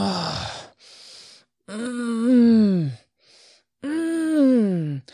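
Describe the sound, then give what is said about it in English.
A person groans in prayer: a breathy sigh, then two long, drawn-out voiced moans that swell and sag in pitch, separated by quiet gaps. “ask the Holy Spirit to just even sigh through you or even groan through you. Sometimes it's like,”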